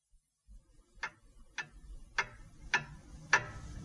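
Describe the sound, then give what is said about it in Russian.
Clock ticking inside a home in town: five sharp, evenly spaced ticks a little over half a second apart, crisp and moderately loud over a faint low background hum, with no voices. “А тем временем в городе у нас дома все тикают да тикают часы, отмеривают время.”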